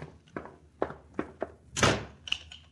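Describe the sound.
A closet door is shut and locked on two men. Several soft thumps lead to one louder slam, followed by a short, sharp click. The sounds are quiet and there is no talk.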